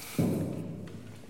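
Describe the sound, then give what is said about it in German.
An audience kneels down for prayer, giving one soft, dull thud followed by a quiet, fading low rustle and shuffle. “Und bevor wir anfangen mit einem Gebet starten, dazu lade ich ein, niederzuknien.”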